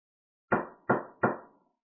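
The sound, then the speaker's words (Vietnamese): Three firm knocks strike the door of a palace hall, evenly spaced and heard alone, each a sharp hollow thud with a short decay. “Ngoài Ti Vũ Điện vang lên tiếng đập cửa.”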